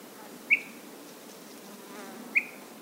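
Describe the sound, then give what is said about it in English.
Insects on a mountaintop in the White Mountains: two brief, high buzzing chirps about two seconds apart, each trailing off quickly, over a faint steady background hiss. “his audio map of the White Mountains is already studded with sounds, from the birds and bugs atop Mount Israel,”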